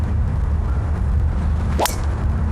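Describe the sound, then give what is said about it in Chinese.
Charley Hull's golf tee shot on the seventeenth hole: one quick swish and strike near the end, over a steady low rumbling background. “这一洞的球道也是被大量的沙坑跟灌木丛左右的夹击，开球偏到左边之后差一点点掉进灌木当中啊。”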